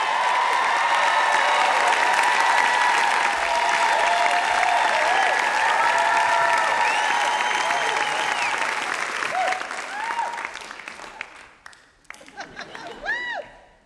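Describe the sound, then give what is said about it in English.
Audience applause and cheering for a storyteller in Nashville, a loud, sustained roar of clapping that thins out near the end, where a few high whoops and cheers ring out as it dies away. “You can hear by the audience reaction that she is beloved in the Music City.”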